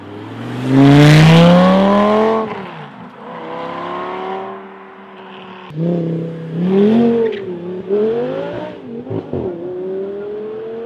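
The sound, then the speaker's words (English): Revving exhaust notes from two Lamborghini engines, an even-fire 5-litre and a 5.2-litre, played one after the other. The loud, throaty roars swell in a few rising sweeps, with no talk over them. “The difference between an even fire 5 liter Lamborghini motor Lamborghini, yeah. And a 5.2, we'll play it now.”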